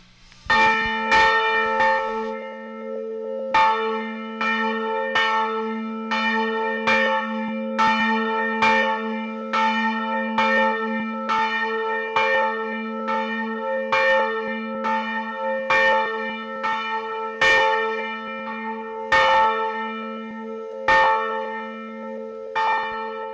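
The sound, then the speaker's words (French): A church bell kept in working order while the church's own bells are silent is struck many times at an uneven pace. Each clang opens with a sharp metallic hit and is followed by a long, humming resonance that never dies away between strikes. “Le son qu'on entend encore, même quand la cloche a fini de sonner, c'est justement tout ce qui fait le charme d'une cloche et sa résonance.”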